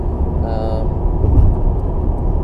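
A car driving home produces a steady, loud low-pitched road rumble that continues without breaks.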